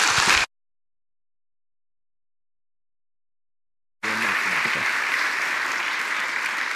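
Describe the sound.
An audience applauds to welcome a speaker. A brief burst of clapping is cut off, followed by a few seconds of silence, and then steady, full applause continues to the end.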